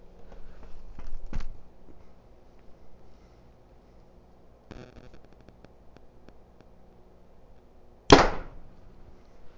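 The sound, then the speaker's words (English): A Bowtech Carbon Icon compound bow shoots an arrow: one sharp, loud snap near the end with a quick decay, after a few quieter handling clicks. “Grab the icon really quick. Knock a new arrow. And here goes the Carbon Icon by Bowtech.”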